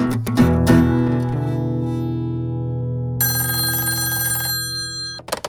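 A telephone bell rings loudly with a few sharp metallic strikes, then a sustained, bright ringing tone that slowly fades, ending with a couple of clicks.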